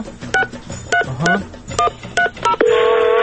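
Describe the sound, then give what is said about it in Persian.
A telephone number being dialed: several short, clipped keypad tones in an uneven rhythm, then a steady, sustained line tone that begins near the end. “بذاری من شمارهشو بگیرم.”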